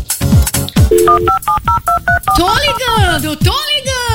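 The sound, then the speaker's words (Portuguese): Telephone dialing tones, a quick run of short, bright touch-tone beeps in an even rhythm, loud, with people talking just before and after them. “Tô ligando.”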